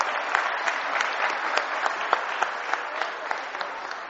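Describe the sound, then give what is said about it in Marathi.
An audience applauds a sixth-grade student who placed third, at a school prize event in Talegaon, with dense, steady clapping and scattered sharper claps standing out throughout, loud and continuous. “जोरात सगळ्यांनी टाळ्या वाजवून त्याचं अभिनंदन करावे.”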